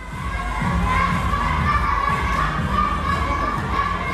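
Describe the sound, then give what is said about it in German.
Youngsters shout and call out while training in the large hall of a taekwondo club in Swisttal near Bonn. A continuous din of children's voices carries low thuds underneath. “Es hört sich ein bisschen an wie Kindergeburtstag im Fitnessstudio. Aber in der großen Halle des Taekwondo-Vereins Swisttal in der Nähe von Bonn trainiert die kommende Taekwondo-Elite Deutschlands.”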